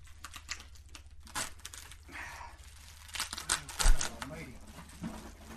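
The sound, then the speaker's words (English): Cardboard packaging sealed with orange tape is unpacked, giving irregular crinkling, rustling and scraping with a heavier thump near the end, all fairly quiet. “There's more packaging.”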